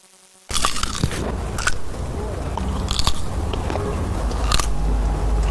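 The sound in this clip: Crisp crunching as someone bites into a fresh jujube date from a village orchard in Miyun district, near Beijing. A loud snap at the start gives way to steady, crackly chewing with a few sharper crunches scattered throughout.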